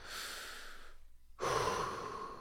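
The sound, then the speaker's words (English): Deep breaths drawn slowly, two long airy rushes of breath separated by a brief pause, the second fuller and louder than the first, with no talking. “Just a couple deep breaths.”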